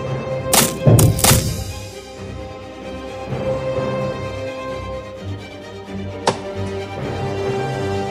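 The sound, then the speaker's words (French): Wooden items in a palace being chopped into small pieces: a few sharp, loud thuds in quick succession early on, then one more later, over a steady tonal background. “Que l'on coupe plutôt en petits morceaux tout ce qui est en bois dans ce palais.”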